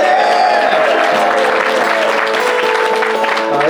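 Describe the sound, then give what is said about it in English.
Loud, sustained applause from an audience welcoming a musical performer onto a comedy show. The clapping stays dense and even for several seconds without letting up. “Will you please welcome Christian Wright, ladies and gentlemen. Give him a round.”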